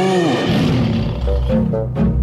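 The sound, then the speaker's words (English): A lion roar sound effect: a loud, low, growling roar with strong tonal layers, sustained through the whole clip. “Yeah, the lion. I think that was the same one as before.”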